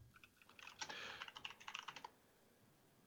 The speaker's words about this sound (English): Google already knows what we're doing at this point. I just typed in J